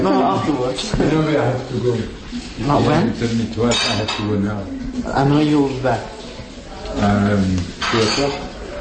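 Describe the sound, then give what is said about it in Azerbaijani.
Dishes and cutlery clink during a lunch meal in a kitchen, a steady scatter of light clatter running beneath continuous talking. “Avropa Şurasının Azərbaycan nümayəndəsi Denis Biribosiya nahar vaxtını hansısa görüşə həsr edəcəyindən yemək yeyirdi.”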